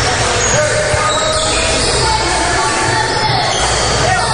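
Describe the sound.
Basketball dribbling on a court during a game featuring the Indians, repeated bounces heard within a dense, steady wash of crowd noise and arena sound.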